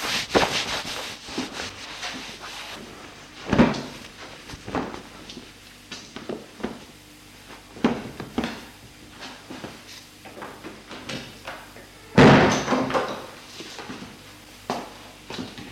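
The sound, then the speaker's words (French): A wardrobe door is handled, opened and closed. Soft rubbing and scraping run under scattered knocks, with two louder thumps standing out. “Fermer la penderie”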